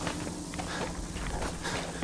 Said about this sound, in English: I'm now running.